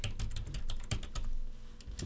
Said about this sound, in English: You're going to type for, in the search bar, you're going to look for architects.